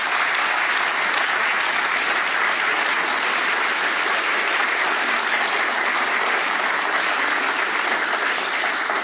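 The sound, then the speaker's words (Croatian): Sustained applause from an audience for an opera singer of the Croatian National Theatre in Zagreb and a young classical guitarist after Spanish folk songs by Manuel de Falla. The clapping is dense and steady, loud and even throughout, with no voices. “Nagradimo ih još jednim velikim pljeskom, uistinu zasluženo.”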